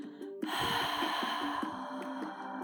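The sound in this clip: A slow, drawn-out breath of air, one long continuous whoosh lasting about two seconds, heard during a guided breathing exercise over a soft, steady tonal background.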